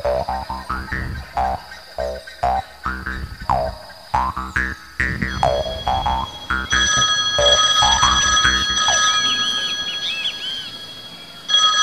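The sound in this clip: A telephone rings before a caller leaves a message, sounding first as many short, evenly spaced ringing bursts, then as a steady, trilling ring that holds to the end.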